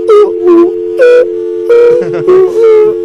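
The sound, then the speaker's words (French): A steady, loud telephone dial tone hums without a break, while short bursts of other tonal sounds rise over it several times. “voulez-vous un dial tone encore?”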